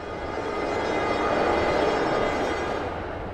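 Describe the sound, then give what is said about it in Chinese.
A train slowly pulls into its terminal station in Changchun. The rumble and rolling noise stay steady and even at a moderate level throughout, with no distinct clanks or horn. “火车缓缓停靠在终点站长春”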